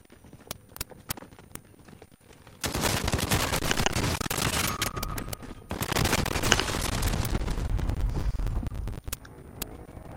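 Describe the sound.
Gunfire in an online shooter video game: a few isolated sharp clicks, then a long dense barrage of rapid automatic shots that rattles on loudly for several seconds before dropping back to sparse snaps.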